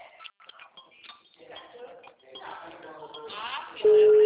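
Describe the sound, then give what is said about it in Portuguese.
A telephone call's ringing tone: after a stretch of talk, a loud, steady single-pitch tone sets in and holds to the end. “Ah, agora tá chamando normal, ó. Olha o jeito que vem aí a ligação.”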